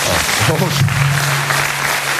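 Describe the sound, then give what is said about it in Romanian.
Audience applause at a stand-up comedy show: steady, dense clapping fills the whole stretch, with a voice sounding over it. “Și să aplaud de cei care sunt foarte dezamăgiți de Nicușor.”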